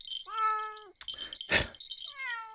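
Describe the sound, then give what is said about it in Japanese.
A cat meows twice, each a drawn-out, clearly tonal cry, with a short burst of rough noise between the two calls. “猫をどかせ。”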